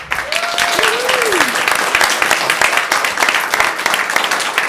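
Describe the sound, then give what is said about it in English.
Audience applause for a guest at a show: dense, loud, steady clapping throughout. Near the start a whistle cuts through, holding a note and then swooping down. “So I'd like to thank our guests, Dr. Rob. Give him a hand.”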